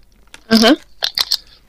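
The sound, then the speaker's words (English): Chewing a crunchy chocolate bar with a cookies and cream center, dark chocolate flecked with chocolate pieces, and crunchy cookie pieces. A louder mouth sound is followed by a few crisp, short crunching bites. “Definitely a cookies and cream center. Very, very smooth taste. Yep. And the Mine. Cookie pieces make it really crunchy.”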